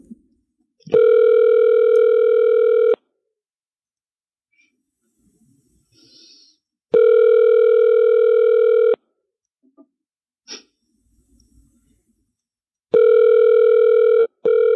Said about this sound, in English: Are we on ring number four now? That's ring number three.